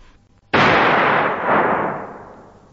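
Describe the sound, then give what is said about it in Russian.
A single gunshot in a forest: one sharp, loud crack after near silence, followed by a long, rolling tail that swells briefly and then slowly dies away. “Но все-таки в лесу кто-то выстрелил.”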